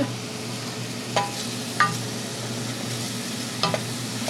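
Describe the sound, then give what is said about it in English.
Onions sautéing in a pan on a stove for soup, a steady low sizzle broken by a few brief scraping clicks of stirring. “On the stove, she sautés onions for the soup.”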